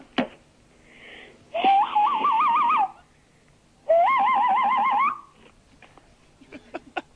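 A man whistles imitation bird calls: two long, high warbling phrases with a rapid trill-like wobble in pitch, separated by a short pause, loud and alone with no talk.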